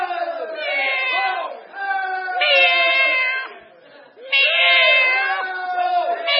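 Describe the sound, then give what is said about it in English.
A human voice imitating a cat, giving a few long, drawn-out meows with wavering, sliding pitch, loud and nasal, separated by short pauses. “meow, meow, meow.”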